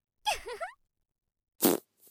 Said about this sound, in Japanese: おっと、ごめんね、ガス漏れしちゃった。